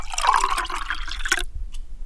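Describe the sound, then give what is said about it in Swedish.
Water poured from a jug makes a steady splashing stream for about a second and a half, then stops abruptly, followed by one faint drip. “Trillingarna ser lite trötta ut, så Skalman hämtar en tillbringare med vatten.”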